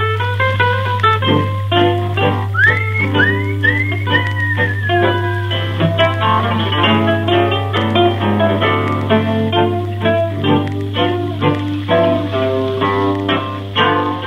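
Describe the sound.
A tango plays from a shellac disc on a wind-up Victrola gramophone: continuous melodic music with gliding whistle-like phrases near the start, over a steady low hum and crackly surface noise.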